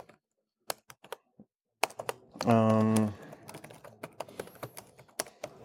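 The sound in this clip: Key clicks come from a computer keyboard as someone types code. Sparse clicks open the passage and grow busier later, with a short hummed vocal sound midway. The typing is fairly quiet.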